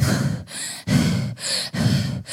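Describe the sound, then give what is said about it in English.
A voice imitating heavy breathing after climbing stairs: several loud, rasping breaths in and out, each separated by a short pause. “She goes the first staircase, and then she stops, and she breathes like that.”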